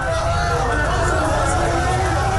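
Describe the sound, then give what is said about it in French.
A crowd massed in the streets of Buenos Aires, waiting for the ambulance carrying Diego Maradona, makes a loud, continuous hubbub of many voices over a heavy low rumble, with no pause. “Ce que vous entendez là, c'est la foule massée dans les rues de Buenos Aires pour voir passer l'ambulance transportant Diego Maradona.”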